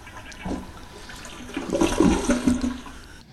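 A toilet flushes without clearing. Rushing water swells to a loud gurgling peak, then tapers off, with no talk.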